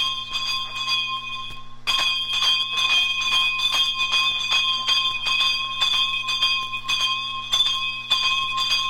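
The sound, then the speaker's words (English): Bells ring in a 1961 recording from Trinidad. Bright metallic strikes repeat rapidly and steadily over sustained ringing tones. A quieter opening gives way, after a sharp onset, to fuller, continuous ringing. “Playing behind me is some bell ringing from Trinidad, recorded in 1961.”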